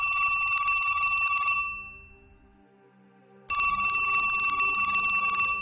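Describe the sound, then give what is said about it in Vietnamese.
A telephone on a bedside table rings late at night with a bright, shrill electronic trill: one long burst fades away, then after a short silence a second burst starts at full loudness. “ông Đăng đang ngủ say, thì điện thoại trên tủ đầu giường lại cứ reo inh ỏi”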